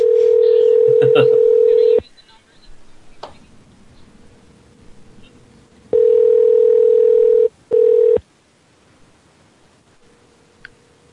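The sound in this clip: Phone line tone on a conference call bridge: a loud, steady single-pitch tone in stretches of about two seconds, separated by quieter gaps with faint tone, hiss and scattered clicks.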